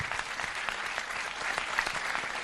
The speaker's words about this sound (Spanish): Aplauso para él, por favor.